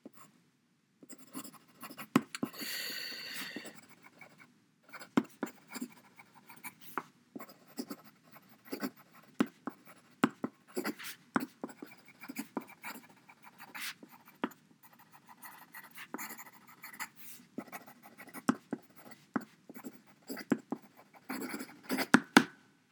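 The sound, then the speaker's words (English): Handwriting on paper: a pen scratches out many short, irregular strokes and scribbles in uneven bursts, with no voices. “let me just write that down.”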